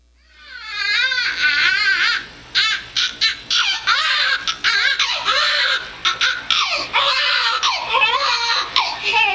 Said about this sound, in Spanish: Así que lo tienen ahí en ese calentador de pollo. Y tiene 2 minutos de nacida y empieza a llorar.